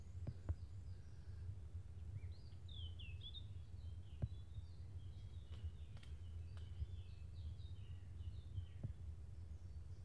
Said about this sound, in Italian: Oltre a tutti gli uccelli che sentiamo cantare, c'è un rumore di sottofondo e dopo un po' capisco che sono le legioni di api che si stanno inebriando